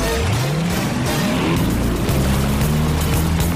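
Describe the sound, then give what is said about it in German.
A boat engine accelerates toward a freighter guarded by soldiers, a loud, continuous motor drone whose tones climb in pitch as it gains speed. “Brad gibt Gas und jagt zum Frachter rüber, der von Soldaten scharf bewacht wird.”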